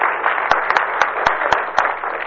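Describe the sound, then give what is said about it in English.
Applause at a community event for a crisis mental health services campaign, a dense wash of clapping with several sharp individual claps standing out. “I know she deserves the applause.”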